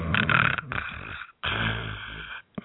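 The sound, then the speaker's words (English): A person snores during a meeting, giving two long, rough, rasping snores with a brief silence between them. The snores are fairly loud and heard alone. “and yes, you hear that ubiquitous snoring”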